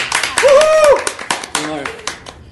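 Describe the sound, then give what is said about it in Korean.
Hand clapping on a talk show set welcoming an actress guest: several sharp, uneven claps mixed with excited, overlapping voices. “배우싸롱 탄생 이래 저희 여배우분을 처음 모시니까 박수 한번 치고 가시죠”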